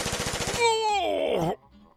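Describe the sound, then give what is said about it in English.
Machine gun fire in a radio drama, a short, rapid, evenly spaced rattling burst, followed by a man's long, wavering groan that sinks in pitch before fading out. “Riddled with machine gun slugs, Carmody seems a sure bet for that funeral. But Killer Bragg's has not yet solved all of his problems with that cowardly blast of bullets.”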